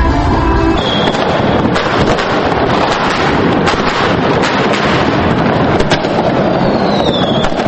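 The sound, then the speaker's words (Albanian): Fireworks at New Year celebrations in Prishtina, Kosovo, make a dense, unbroken wash of crackling and popping blasts that stays loud throughout, mixed with rushing, windy noise. “në momentin e ndrimit të vitit janë shkrepur fishek zjarret e shumta.”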